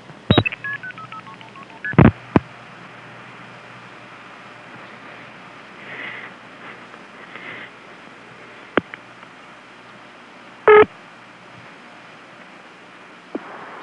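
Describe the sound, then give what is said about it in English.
Touch-tone telephone dialing of a non-working number: a few short, bright tone bursts spaced irregularly, with faint line hiss between them. “I'm dialing the non-working number, and Ben will break into it.”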